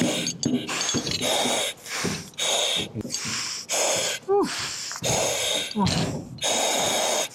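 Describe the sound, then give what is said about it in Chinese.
Rapid, heavy breathing from someone wearing a face mask after climbing two flights of stairs, with many loud, rhythmic gasping breaths in quick succession. “现在听我的呼吸，明显比刚刚上来之前要急促的多。”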